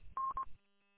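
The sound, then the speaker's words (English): Telephone tones from an incoming phone call: two short, steady electronic beeps at the same mid pitch in quick succession, then only a faint, low hum. “Hold on, I got a phone call.”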